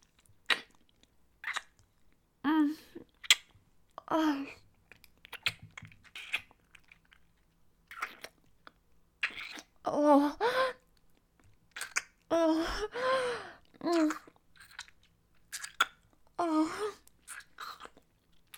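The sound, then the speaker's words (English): Quiet chewing and mouth sounds as food is tasted, in short irregular bursts of wet, crunchy clicks separated by silent pauses, with faint whispery breaths between them. “Oh, it's very nice. I just really need to taste it.”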